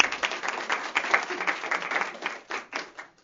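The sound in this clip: Audience applause welcoming a speaker to the stage, a dense patter of many hands clapping for about three seconds, fairly soft and thinning out at the end.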